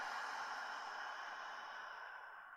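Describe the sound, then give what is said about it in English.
A long, soft breath during a guided relaxation exercise: one continuous airy hiss that slowly fades over a few seconds, with no talk. “Let's start with a full breath in, full breath out.”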